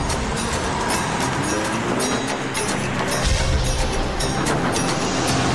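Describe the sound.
A car driving hard under heavy acceleration, its engine and road noise roaring loud and steady throughout, with a deeper low rumble swelling in past the midpoint.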